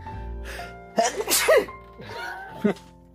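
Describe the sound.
An allergy sneeze bursts out sharply amid talking, a short explosive gust set against a voice speaking before and after it.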